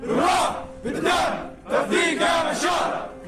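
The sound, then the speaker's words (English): Men's voices chant together in loud, rhythmic unison: Syrian fighters lined up to enroll as volunteers for the war in Ukraine, repeating four surging phrases with brief pauses between them. “What you're hearing now are chants by Syrian fighters lined up to enroll.”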